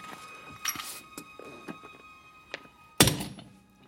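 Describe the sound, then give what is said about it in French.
A small cast-iron bomb, unloaded and barely bigger than a hand grenade, is thrown and lands with one sharp, heavy thunk near the end. A few lighter knocks and rustles come before it. “La coque en fonte est beaucoup plus épaisse du côté des capsules. Ouais. C'est infaillible. Essayez vous-même, jetez donc celle-ci.”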